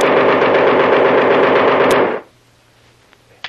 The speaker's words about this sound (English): What happened? This gun is jammed, Kolo.